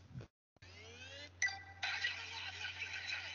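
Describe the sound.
A mobile phone ringtone or notification plays at a low volume setting. Soft electronic chiming tones begin after a short silence and continue steadily, with a brighter, busier layer joining partway through.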